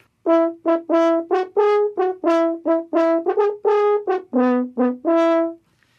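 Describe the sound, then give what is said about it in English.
A horn pitched in E plays a brisk melodic phrase of many short, detached notes, bright and full, each sharply tongued with brief gaps between, alone and clear. “So maybe you had an E horn, it was pitched on an E like this.”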